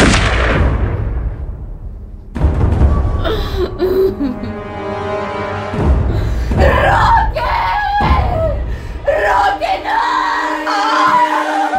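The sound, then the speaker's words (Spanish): Rifle fire in a drama: a few loud, sharp blasts, each one trailing off, separated by stretches of sustained tonal sound. “Echo mi fusil al hombro y hago fuego sobre...”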